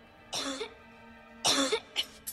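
A woman coughs up a key, with two strong, rasping coughs followed by a couple of shorter, fainter coughs.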